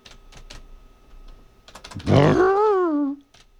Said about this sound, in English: Come on, motherfucker. Learn how to type.